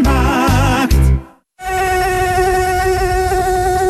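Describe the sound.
A mosquito gives off a loud, high-pitched buzzing whine that wavers at first, breaks off briefly into silence, then returns as a steady, continuous drone.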